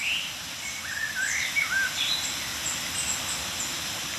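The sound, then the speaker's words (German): Tits give a scattering of thin, high contact and mild alarm calls, several brief soft chirps over a low, steady background hiss, with no voices. “Kontaktrufe oder milde Aufregungsrufe einiger Meisen um uns herum.”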